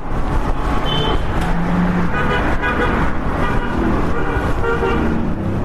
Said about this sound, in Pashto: دلته د خلکو او موټرانو ګڼه ګوڼه ده.